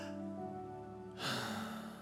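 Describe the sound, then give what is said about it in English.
A group of people at a church gathering taking a deep breath together: a faint breathy rush swells briefly over soft sustained tones. “Let's take a breath. Everybody take a breath.”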